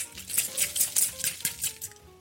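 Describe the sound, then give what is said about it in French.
Fork mashing butter with seaweed and lemon juice in a bowl: quick, rhythmic scraping and clicking strokes against the dish, repeated many times at a steady pace, moderately loud with no talking. “Et là, je vais pouvoir mélanger, toujours à la fourchette, mon beurre avec mes algues et mon jus de citron.”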